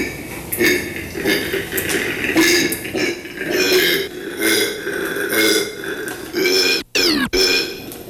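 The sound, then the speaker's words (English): A male koala gives a ferocious territorial bellow in an enclosure with a female nearby, a long string of loud, rasping, belch-like grunts pulsing rhythmically, broken by a couple of abrupt catches near the end. “So I was totally unprepared for the ferocious sounds that these marsupials are capable of making.”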